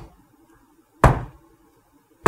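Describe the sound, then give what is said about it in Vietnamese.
Slow, even knocking on a door: two heavy, dull thuds spaced a little over a second apart, each sharp at the start and quickly fading, with quiet in between and no talk. “tự nhiên bạn nghe tiếng gõ cửa. Mà không phải là cái tiếng gõ cửa dồn dập, mà cái kiểu cách đó các bạn vậy nè.”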